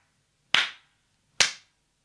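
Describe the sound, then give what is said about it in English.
Two sharp, crisp hand claps ring out alone against near silence, each a bright smack with a quick decay, spaced a little under a second apart. “Then the eldest princess clapped her hands 3 times,”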